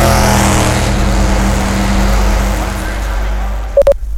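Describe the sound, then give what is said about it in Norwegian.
Formula race car engines rumble loudly and continuously before a race start on a hot sunny day, a dense steady roar, with two brief beeps near the end. “20 seconds to the start of the 31st Formula race on a hot sunny day.”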